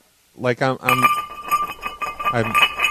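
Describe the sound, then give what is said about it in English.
A glass object is knocked over and gives a bright clink that rings on with a sustained, high tone. A brief voice sounds just before it and again partway through the ringing. “I just knocked that over. Oh, that was glass.”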